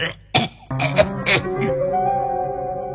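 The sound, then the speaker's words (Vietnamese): A voice imitates an old man's heavy-smoker cough, a few harsh bursts of coughing and throat clearing in quick succession, fairly loud, followed by a steadier sustained sound. “ho quá, hút nhiều thế này khéo ung thư phổi rồi chết à”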